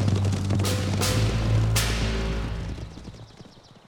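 Horse hooves clip-clopping while a horse is ridden, a few sharp thuds over a dense low rumble that gradually fades toward the end.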